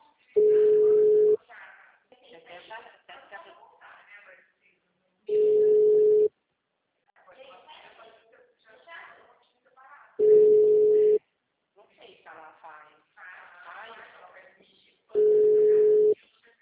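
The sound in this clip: Telephone call tone for a dialed number that is not answering: four steady, even beeps about a second long repeat at regular intervals of roughly five seconds, with a recorded voice speaking between them.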